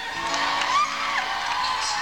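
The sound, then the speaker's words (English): A music audience cheers at a live performance, with a steady, diffuse crowd roar and a brief whoop rising above it. “Sounds like a musical audience.”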